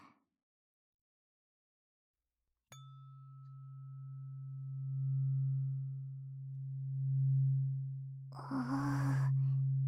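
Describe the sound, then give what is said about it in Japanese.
A resonating ear-cleaning tool gives out a deep, steady booming hum after a sharp click, swelling and fading slowly in loudness, with a brief breathy sound near the end. “ボーンってするね。音で耳の中までブルブル震えて耳垢取れやすくするよ。”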